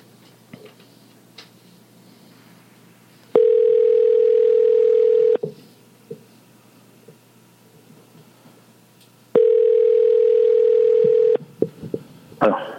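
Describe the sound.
Telephone line tones while a call is being placed: two long, steady mid-pitched tones, each about two seconds, separated by a quiet gap of several seconds with faint clicks and room noise.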